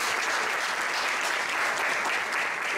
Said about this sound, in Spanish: Así que me gustaría que demos la bienvenida a nuestro chef, Jorge González. Un fuerte aplauso para él.